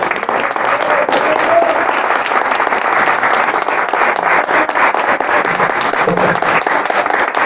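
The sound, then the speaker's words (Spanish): Group applause at a shelter in Guadalajara, thanking donors who shared food: a steady, dense round of clapping that holds at an even level throughout. “Que Dios les premie, que Dios les pague su generosidad para con nosotros. Les damos un fuerte aplauso.”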